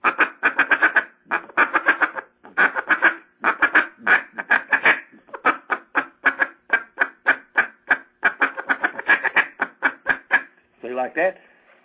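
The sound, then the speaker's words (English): Clucking feed call blown on a duck call to imitate hen ducks feeding, made of many rapid, rhythmic bursts of short clucks in quick clusters and ending with a brief, drawn-out quacking note. “That right there, you're right. I've never done that before in a duck call, okay? And I'm going to tell you right time. That right there sounds more like the hens that are down here on the creek behind the house feeding on the acorns.”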